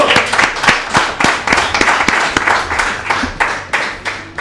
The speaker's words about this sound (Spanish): No fomentes tantos aplausos igual, porque si no es como que es interminable, ¿viste?